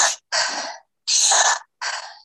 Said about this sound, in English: it's a circular breath where you really exaggerate the inhale and then you let the exhale fall. So it sounds something like this.